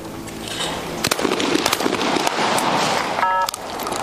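Shotgun blasts at clay targets in a double-trap shooting competition: a few sharp, loud cracks stand out against steady, broad background noise.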